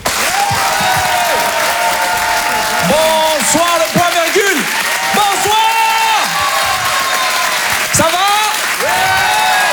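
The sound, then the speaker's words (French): Live comedy club audience applauds and cheers, steady loud clapping throughout with many shouted whoops and cries rising above it. “Je vous demande de faire un maximum de bruit, s'il vous plaît, mesdames, messieurs, en direct et en live sur Rire et Chanson.”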